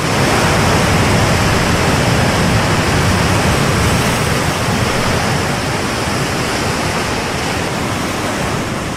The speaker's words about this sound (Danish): Det her, det er lyden af bølger. Det kunne også umiddelbart lyde, som om det er lyden af lidt skrættende fjernsyn. Men det er lyden af vand.